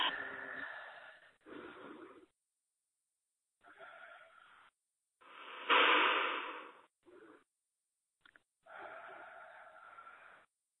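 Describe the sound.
A person takes deep breaths during a trauma therapy session: several airy, wheezy breaths in and out with silent gaps between them. The strongest breath comes around the middle, with shorter, softer ones later.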